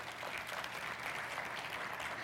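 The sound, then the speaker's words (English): An audience gives a clap offering to God during a church service: soft, steady, dense applause that holds at an even level throughout. “You can give God a clap offering too if you want.”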